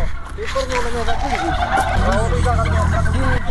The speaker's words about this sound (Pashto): د جوارو له دانو موټي ډکوي او فیل مرغانو ته یې اچوي. فیل مرغانو هم د خړو په لیدو سره شور جوړ کړي.